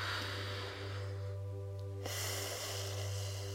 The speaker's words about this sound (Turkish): Ve ikincisi zihnimizdeki stres için, gerginlik için kocaman büyük bir nefes.